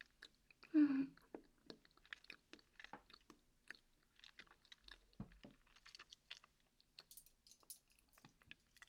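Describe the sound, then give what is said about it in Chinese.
Chewing and crunching of hot food at a meal, with one loud bite near the start followed by many soft, irregular chewing clicks. “嗯，看起来真好吃。那我要开动啦！”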